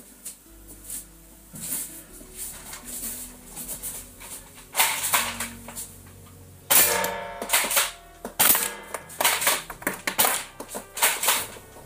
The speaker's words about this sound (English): Last shell, I'm going to be firing from crouching.